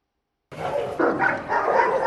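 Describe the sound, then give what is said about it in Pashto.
Dogs bark at a dog training centre in Cairo: a few loud, overlapping barks and yips in quick succession, starting abruptly after a short silence. “قاهره کې د سپیانو د تربیه کولو یو مرکز پرانستل شو دی.”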